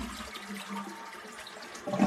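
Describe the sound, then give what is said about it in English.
A toilet flushes in a fairly quiet, steady rushing and swirling of water that carries on throughout and swells briefly near the end. “Yeah, we're flushing that turd.”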